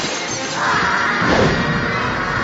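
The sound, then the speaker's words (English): A glass window shatters as a trailing flying craft crashes into it, producing a loud, noisy smash that swells and holds for about two seconds. “The Starhawk trailing after him hit the window.”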